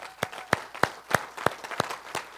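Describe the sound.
Applause for volunteers from an audience, with a steady series of sharp, loud claps standing out over softer background clapping and no talk.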